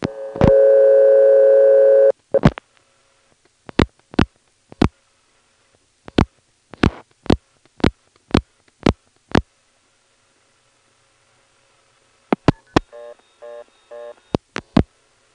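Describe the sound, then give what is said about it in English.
A step-by-step telephone exchange handles a long-distance call: a steady dial tone opens, then many sharp dialing clicks in irregular groups, and near the end a brief pulsing toll restriction tone sounds between the last few clicks. “I'm going to first dial 1 plus 212 and a 7-digit number, and we'll get the usual toll restriction.”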